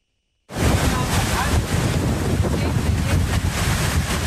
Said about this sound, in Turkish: Fırtına ve hortum önüne kattığını savurdu.